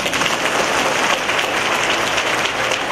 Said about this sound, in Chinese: 鼓掌啊